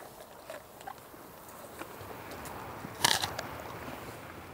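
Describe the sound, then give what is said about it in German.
German Angus cattle crunching stored apples from an orchard: a few soft, brief crunches and one louder, crackling cluster of bites over a steady background hiss. “Die Lageräpfel von ihrem Obsthof schmecken den Deutsch-Angus-Rindern offenbar richtig gut.”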